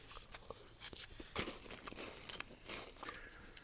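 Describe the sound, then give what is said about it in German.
Crunchy chewing while someone eats a Kinder Joy chocolate treat: a run of faint, irregular bites and crisp mouth clicks, with one sharper crunch partway through. “Ich habe jetzt meinen Kinderjoy geholt und esse es gerade.”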